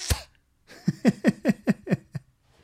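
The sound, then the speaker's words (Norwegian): A person imitates a kitten's weak, clumsy hiss. One sharp breathy puff is followed by a rapid run of about seven short, sputtering voiced bursts, like air escaping in quick spurts. “kattunger, de kan jo, de er ikke så flinke å fræse, så det blir sånn her,”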